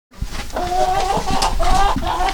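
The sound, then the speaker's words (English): Hens cluck in a chicken coop on a farm beside a pig pen: a steady run of several short, nasal, mid-pitched clucks repeating at an uneven rhythm, fairly loud, with no talk. “Next door to the pigs, there's a coop full of chickens.”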